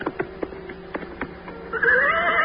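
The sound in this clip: Young Arthur's horse gallops back to the tournament: a rhythmic run of sharp, fairly faint hoofbeat thuds at a steady pace, after which a louder sustained tonal sound takes over.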